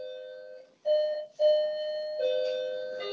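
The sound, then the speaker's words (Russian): A doorbell-style electronic chime signals a score during a sports betting chat about an Arsenal–Newcastle match. It gives a few clear, sustained ringing tones, each struck anew with a bright, steady pitch and no voices. “Два раза прозвенел звонок, видимо, 2-0 у вас.”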